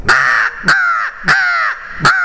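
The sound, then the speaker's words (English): Four loud, harsh caws are blown on a hunting tube crow call, spaced fairly evenly. Each is a raspy, nasal note with a sharp onset and sounds alone, with no talk. “I like to blow a crow call”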